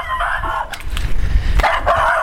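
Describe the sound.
A puppy gives a few short, high yips and barks on a city street beside a cemetery, over steady low background noise.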